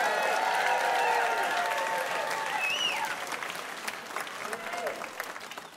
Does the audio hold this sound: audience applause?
yes